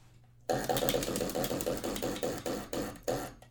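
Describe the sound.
A question wheel spinning, giving a loud, rapid ratcheting tick that starts abruptly and gradually slows as the gaps between clicks lengthen, then stops.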